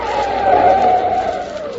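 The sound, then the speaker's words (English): Car brakes slammed on a road at night to avoid a man standing in the headlights, producing a sustained, loud tire squeal that holds steady and then drops in pitch as the car skids to a stop. “Mike drove along slowly, feeling his way. And all at once, the figure of a man loomed up in the flood of his headlights, stood there motionless in the middle of the road. Mike had to slam on his brakes so that he wouldn't run over him.”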